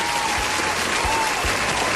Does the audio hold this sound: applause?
yes